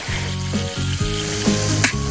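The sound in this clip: Hot oil sizzles loudly as toona sprouts fry in a pan in a small courtyard, a dense, steady crackle broken by a few brief scraping stirs.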